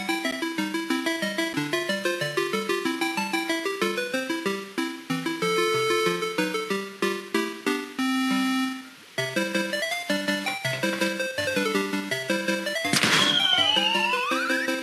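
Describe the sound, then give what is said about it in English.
Music and sound effects from the 1982 video game Pooyan: a bouncy, bright chiptune melody in quick repeated notes, a brief break near the middle, then a noisy crash followed by a falling zing near the end. “The psychotic part is that this special mission actually uses the music and sound effects from 1982's Puyan.”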